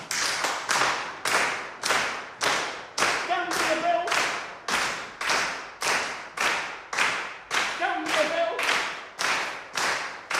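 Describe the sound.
Group body percussion: hands clap and feet stamp on the floor in a steady, even rhythm, repeated many times at a brisk pace. A voice briefly calls out twice over the beat.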